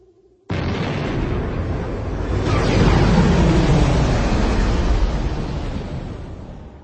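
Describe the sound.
A blue and white starfighter blasting upward from a landing deck into a gale: a sudden, loud roaring blast that starts abruptly, swells into a broad, sustained rush, then eases off slightly toward the end.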